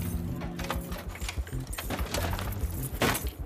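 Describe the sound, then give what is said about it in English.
Keys jangle and clink as a desk is unlocked, a quiet run of many small, irregular metallic taps over a low, steady background. “He darts forward and grabs the photo again, reaches for his keys and opens his desk.”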